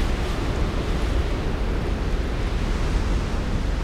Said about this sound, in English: I can hardly hear anything over the sound of the wind. And I can feel the wind and dust passing overhead. I sure wouldn't want to be out there right now. Keep holding on tight. The wind is blowing harder and harder.